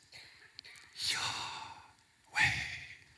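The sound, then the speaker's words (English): A person breathes to imitate the divine name YHWH: two soft, airy breaths separated by a pause, the second sharper and stronger than the first, quiet and with no other sound. “So the name of God was not something you spoke, it was something you breathed. So it sounded like this.”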